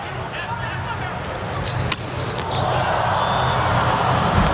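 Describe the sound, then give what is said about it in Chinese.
A volleyball serve during a USA versus Poland match: one sharp thud of the ball stands out midway through steady, loud crowd noise, and commentary runs over it. “是莱万斯基的发球”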